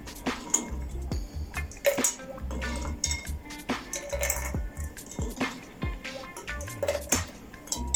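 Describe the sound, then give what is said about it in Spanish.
Ice cubes drop into a cocktail glass as a whisky drink with apple garnish is built. Many sharp clinks and rattles come at irregular moments, with a faint liquid drip among them and no talking. “tomaremos nuestra copa y incorporaremos primeramente el hielito que llevará al fondo”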